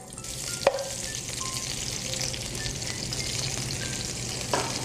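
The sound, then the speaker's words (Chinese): Onions fry in salad oil in a hot wok, giving a steady, busy sizzle that crackles evenly throughout, broken by a couple of sharp clicks near the start and end. “然后接下来我们先开火，然后我们先下沙拉油，然后我们先爆香洋葱，”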